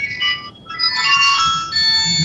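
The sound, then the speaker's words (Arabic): A mobile phone ringtone goes off during a lesson, playing a loud, bright electronic melody of repeating high tones with short gaps between phrases and no voices over it. “إذن أرجو الهاتف من طريق صاحب الهاتف هذا، من صاحب الهاتف هذا؟”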